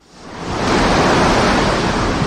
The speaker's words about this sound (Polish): W południe na Bałtyku w Mielnie wiatr wiał z siłą dochodzącą do 7 stopni w skali Beauforta.